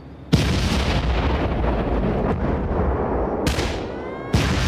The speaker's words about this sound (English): Minutes after this phone call, Jordanian guns and mortars start to shell the Israeli half of Jerusalem.